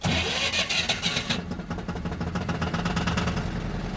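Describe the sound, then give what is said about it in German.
A small yellow cable ferry's engine starts on a canal crossing. A brief burst of cranking gives way to the motor catching, then settling into a steady, low, rhythmic throb that stays loud and even to the end, with no talk. “schmeißt die Maschine an. Die kleine gelbe Seilfähre bringt mich auf die andere Kanalseite nach Fitzen.”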